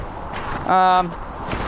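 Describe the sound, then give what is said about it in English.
Boots crunching through unshoveled snow on a sidewalk, a continuous rough granular crunching under the steps, broken midway by a short voiced sound. “has not been shoveled, so we're getting a lot of good snow crunching sounds. This is quite nice.”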